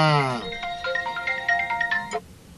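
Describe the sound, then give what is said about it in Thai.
A telephone ringtone signals an incoming call, a short melodic run of bright electronic beeping notes after a brief voice at the start, fairly faint. “มีคนโทรมาแล้วครับมีคนโทรมาแล้วครับรับสายก่อนครับ”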